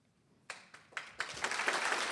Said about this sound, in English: Applause to AgnePix.